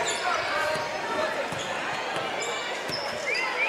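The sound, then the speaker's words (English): Basketball dribbled on a court during a game, a few dull bouncing thuds set against a constant wash of crowd noise. “Wehr just dribbling the ball back left corner”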